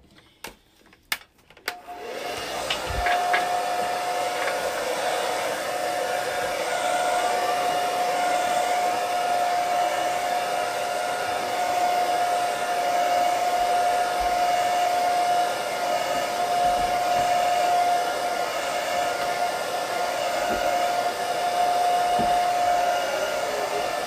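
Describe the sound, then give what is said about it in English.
A blow dryer starts after a few sharp clicks, then blows loudly and steadily for the rest, a constant rushing whoosh topped by a thin, high whine. “And gently plugging this blow dryer without blowing out my circuit.”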